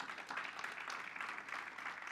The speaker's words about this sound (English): Come on, give God a hand clap.